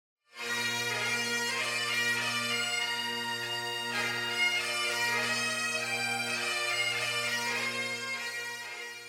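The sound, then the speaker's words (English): A bagpipe plays a continuous, bright, reedy melody over steady low drones, sustained without pause and at a constant loudness. “I mean, a bagpipe sounds like this.”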